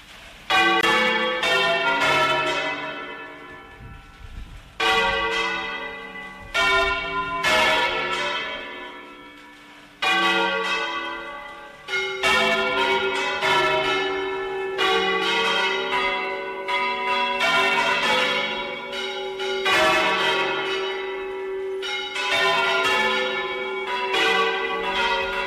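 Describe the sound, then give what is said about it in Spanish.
Traditional church bells ring out at Valencia Cathedral in the oldest local style, marking the end of a procession. Many loud, overlapping strikes form rhythmic peals, with brief lulls between bursts, and no voices. “Pues estamos escuchando la forma, digamos, más original que había o más antigua de tocar en la Catedral de Valencia.”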